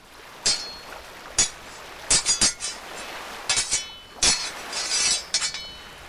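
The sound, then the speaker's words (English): Metallic clanks and bright clinks of swords clashing in a staged duel between two rivals in an audio drama. Many sharp strikes come in irregular bursts, some in quick doubles and triples, each with a high ringing tail over a quiet background. “Mowbray draws his sword and advances toward Vanderdecken. The demonic Dutchman also raises his sword, and the rivals fight for the fate of the fair maiden.”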